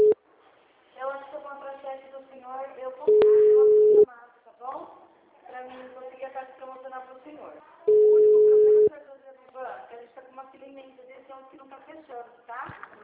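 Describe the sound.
Telephone line tones play while a call is transferred: two long, steady, mid-pitched tones, each lasting about a second, break up stretches of voice-like sound.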